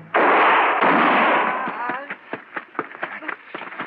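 A revolver fires a single loud gunshot that booms and rings on for over a second, then trails off into a series of fainter, broken bursts.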